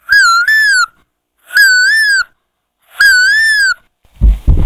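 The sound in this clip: A school student's voice imitating a cuckoo call: three clear, whistled tonal hoots, each slightly bending upward and separated by short pauses, the first split in two, followed by a brief noisy burst.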